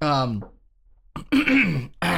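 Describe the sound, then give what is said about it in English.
Gacking throat-clearing and coughing from a person: a voiced hack, then a near-silent pause, followed by a few harsh, rough bursts of coughing and throat noise. “You were the one that was sick, and I'm the one making all these gacking noises on the fucking podcast here.”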